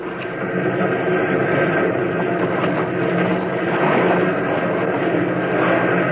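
An aircraft taxis on water, its engine giving a steady, loud, unbroken drone throughout with no voices.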